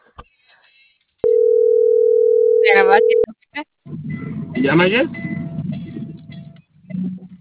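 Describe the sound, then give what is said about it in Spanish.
A telephone line tone after a dropped call, one loud, steady, low-pitched hum lasting about two seconds. People talk and other scattered sounds follow it. “Perdóname, se cortó la llamada.”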